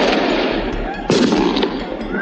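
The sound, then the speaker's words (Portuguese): Gunshots and explosions during a prison riot at a São Paulo state penitentiary: dense, continuous crackling bursts with one louder blast midway, loud throughout. “Tiros e bombas.”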